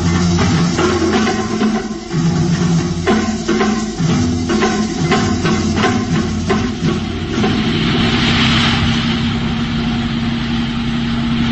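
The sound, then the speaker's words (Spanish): Engine of a luxury Rolls Royce moving slowly along a lonely road in thick fog, a loud, steady, rumbling drone that holds its level throughout with only slight wavering. “Las recias y musculosas manos de Calimán sostienen con pulso firme el volante del lujoso Rolls Royce, que se desliza a marcha lenta por la solitaria carretera, envuelta en la espesa niebla.”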